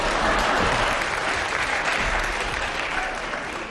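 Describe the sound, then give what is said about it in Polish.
Applause from a studio audience at a radio show taping: dense, steady clapping that stays loud throughout and tapers slightly near the end. “Tak, brawa.”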